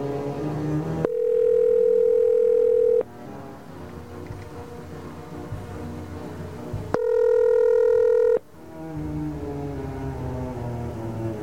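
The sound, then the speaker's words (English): Steady telephone tones sound while dialing out on a phone line: two long, flat, mid-pitched beeps, each lasting a second or two, separated by several seconds of a low, continuous background. “Problem when you have all the beeps sounding the same like this, you can't tell if they're all correct.”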